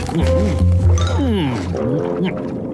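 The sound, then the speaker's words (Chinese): Bubbles gurgle up from an oxygen tank underwater, a soft liquid bubbling heard beneath voices talking. “看呐，妈妈，是呱唧的氧气筒里冒出来的泡泡。”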